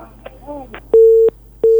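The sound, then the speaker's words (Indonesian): A telephone busy tone follows a dropped call on a radio call-in line: brief faint voice fragments, then two steady mid-pitched beeps with a short gap between them. “Iya, terputus ya.”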